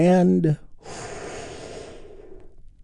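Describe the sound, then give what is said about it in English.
A deep breath during a guided healing-breath meditation: a brief spoken phrase gives way to a long, airy rush of breath that lasts over a second and then fades slowly away. “take another big, deep, healing breath with me right now. Here we go.”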